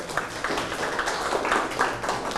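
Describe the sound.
Students seated in a classroom clap for a group of classmates, a loose run of many overlapping claps at moderate level with small bursts of louder hands.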